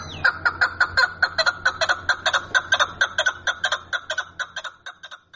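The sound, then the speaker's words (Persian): A partridge calls in a rapid, regular run of many short, sharp clucking notes. The notes keep an even rhythm throughout, growing slightly softer toward the end. “او میخواهد چون روزهای دیرین باز در پشته های دهی آنها صدای این پرنده خوش آواز بلند باشد و دیگر به خاطر شنیدن آواز خوشش کبک را به قفس نندازد.”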